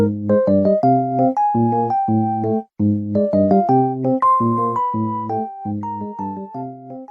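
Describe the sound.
Calm background music from a video game, the theme for exploring a club scene with no threat. A mellow melody of bell-like keyed tones over soft chords moves in repeating phrases, with a short pause partway through.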